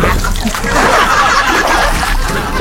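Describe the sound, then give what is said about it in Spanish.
Oars splash water as a boat is rowed, a loud, continuous wash of splashing and sloshing with no clearly separate strokes. “Rema tu bote. Qué chido se escucha, ¿verdad? Es remando.”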